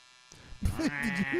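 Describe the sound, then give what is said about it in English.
A coarse electric buzz, likened to an electric shaver, kicks in partway through after a quieter start and holds steady and fairly loud to the end, its pitch wavering slightly in a bleat-like way. “Wait, did you hear that shit? What the fuck? Now he's shaving his legs too.”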